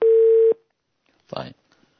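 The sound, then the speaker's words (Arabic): A phone line tone follows a call being cut off: one steady, mid-pitched beep lasting about half a second, then a pause and a brief burst of voice. “انقطع الاتصال تقريبا”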